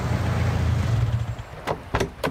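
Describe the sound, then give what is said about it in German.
A car approaches with a steady low engine rumble, then three sharp clattering knocks follow near the end. “Geh mal ein bisschen an den Rand, da kommt dein Auto.”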